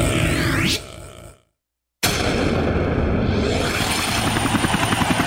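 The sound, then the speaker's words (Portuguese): A helicopter-like aircraft roars as it approaches to land, with a sweeping tone at first. The sound cuts to silence briefly, then returns loud with a steady pulsing rotor drone. “Aeronave Fox 01, entrando espaço aéreo cearense. Atenção, torre de comando, pedindo permissão para pousar.”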